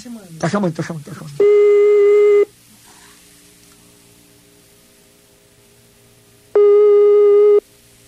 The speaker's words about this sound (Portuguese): Tá chamando.